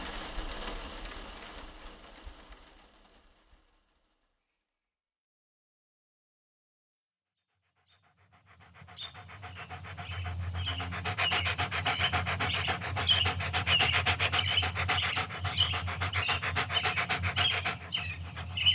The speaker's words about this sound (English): That's my dog. He's okay.